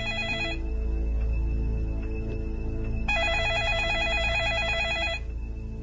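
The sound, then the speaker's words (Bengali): A mobile phone ringing with an incoming call gives off a steady electronic ringtone, a repeating looped melody of bright tones that pauses briefly midway, then resumes before stopping, fairly loud and alone. “Hasan যখন এসব ভাবছিল তখনই তার মোবাইলে phone এলো তার বন্ধু তুষারের।”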